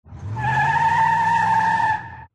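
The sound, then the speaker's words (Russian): Car tires squealing as the car speeds off: one sustained, high-pitched screech lasting about two seconds over a low engine rumble, loud and steady before cutting off. “Взвизгнув шинами, машина сорвалась с места.”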